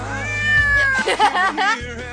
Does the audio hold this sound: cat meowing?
yes